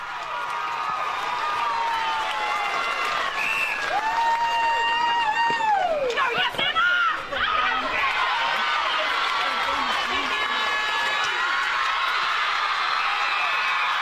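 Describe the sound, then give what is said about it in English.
Netball players cheering and celebrating an A-grade grand final win on court: a continuous loud mass of excited shouts and squeals, with high whooping cries that rise and fall. “That is the sound of the Navarre players celebrating their win”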